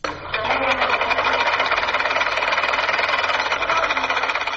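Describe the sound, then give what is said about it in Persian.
A sewing machine runs in a tailoring workshop in Kabul, starting abruptly and then holding a loud, continuous, fast mechanical rattle and whir at an even pace with no voices. “این صدای ماشین خیاطی در یک کارگاه خیاطی در کابل است”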